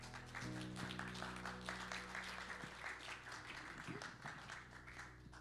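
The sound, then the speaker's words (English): A church audience applauds to welcome the pastor on a Sunday morning: faint, dense, steady clapping from many hands throughout, over a low hum. “please put your hands together as we welcome Pastor Onami this morning.”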